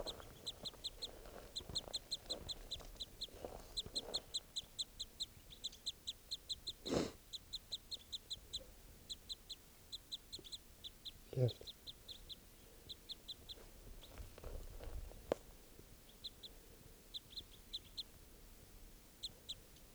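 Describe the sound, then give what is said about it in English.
A female crossbill calls by a mist net, giving many short, high chirps in quick, regular bursts, with several low thumps of handling noise in between. “There's two birds still here by the net, and they just started calling loud. I think other crossbills are also around. Step. Recording one of the females here.”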